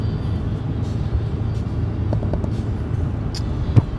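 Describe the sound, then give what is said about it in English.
A car drives on a highway during a morning commute, giving a steady, loud, low rumble of engine and road noise that holds constant throughout. A brief knock sounds near the end. “And I'm driving to work.”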